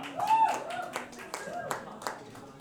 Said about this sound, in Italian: Un applauso a Giova.